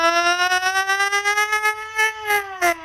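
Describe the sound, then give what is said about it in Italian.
An ambulance siren sounds a loud wailing tone that climbs slowly in pitch, pulsing quickly in loudness throughout, with a few sharper bursts near the end. “Hai capito che ambulanza?”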